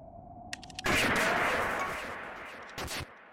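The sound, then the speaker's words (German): A loud gunshot blast in the video game Pizza Tower, with a long fading tail. A few sharp clicks come before it, and a short, harsh burst follows near the end. “Ich habe als erstes geschossen.”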